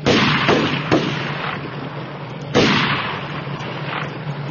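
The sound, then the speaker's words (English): Flintlock gunshots from a group firing up from the foot of a ladder: two heavy booming reports, each with a long decaying tail, with a few smaller pops in between. “a group of cannies standing at the bottom of the ladder started firing flintlocks in reply.”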